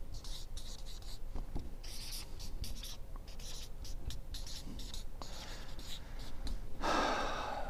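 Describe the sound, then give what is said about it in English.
Handwriting: a pen scratches across paper in a quiet, irregular series of short strokes, ending in a slightly louder, longer scrape. “I should write that down.”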